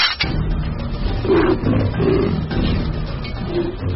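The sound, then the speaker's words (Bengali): A leopard with its front leg caught in a trap roars in pain, a loud and rough run of growling roars that rise and fall and go on almost without pause. “এই গর্জন রাগের, যন্ত্রণার। ওই যে শুনেছ, ব্যাটা ট্র্যাপে পড়েছে। টর্চটা জেলে দেখলাম ট্র্যাপটা লেপার্ডের সামনের পায়ে আটকেছে।”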